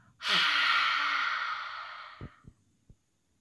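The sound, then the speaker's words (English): A slow, forceful exhale after a held breath, a breathy rush that starts strong and gradually thins over about two seconds, followed by three faint soft knocks. “Hold it for 4 seconds. And then breathe out our fiery breath.”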